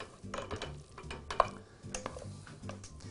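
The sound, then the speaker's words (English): Soft wet stirring and utensil scrapes as spaghetti al pomodoro in fresh tomato sauce with olive oil is lifted into a bowl, with light clicks against the dishware over a steady low background. “So just to simply plate this, I'm just going to bring it right here in this bowl.”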